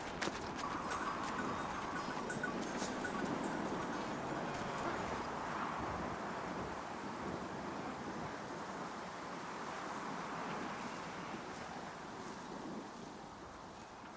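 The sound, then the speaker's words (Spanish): A flock of sheep being herded, heard as a dense, continuous patter of many hooves with wind rushing steadily throughout. “guiad al rebaño.”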